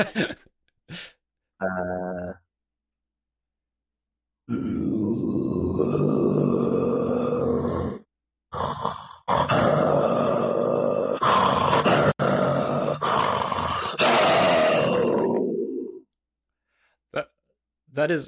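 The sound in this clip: A performer imitates a tiger for Broadway's Life of Pi, voicing a few short snarls and then two long, throaty growling roars that rasp and rumble before trailing off.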